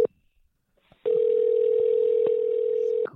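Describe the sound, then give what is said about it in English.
Telephone being dialed: a brief beep and a few quiet clicks, then a steady, loud, mid-pitched dial tone holds for about two seconds, broken only by faint clicks before it cuts off. “So let me find that number and dial it up here.”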